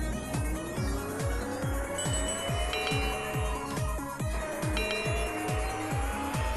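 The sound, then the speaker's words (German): Car engine in a timed mobile driving skill game, a buzzing engine tone climbing steadily in pitch across the lap over regular, rapid rhythmic pulses, with no talk. “fahre jetzt hier weiter und müsste jetzt gleich meine erste Runde hier beendet haben.”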